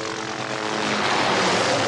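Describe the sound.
A private, unmarked helicopter in flight: a steady, loud drone of rotor and engine noise that swells slightly over its short span, heard alone with no voices.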